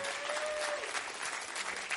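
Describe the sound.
Church audience applauding to welcome a guest speaker on Pentecost Sunday, a dense, steady patter of many hands that holds at an even level throughout.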